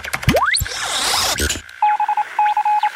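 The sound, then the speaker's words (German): Telephone dialling beeps as a call is placed from a studio phone. Rapid, steady electronic bleeps come in two short clusters after a noisy, sweeping electronic passage, with no voices. “kannst du mal den X-Funker hier bemühen im Studio und damit Sternchen anrufen?”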